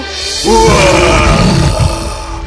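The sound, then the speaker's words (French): An angry lion lets out one loud, drawn-out growling roar that starts abruptly after a brief quiet moment and holds for about two seconds. “Le lion fut furieux que quelqu'un l'ait dérangé pendant son dîner si attendu. Il aperçut Aaron et rugit de colère.”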